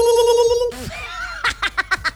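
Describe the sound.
A short, steady electronic ring from a telephone signals an incoming call, then stops abruptly. Voices follow with a few quick, pulsing bursts.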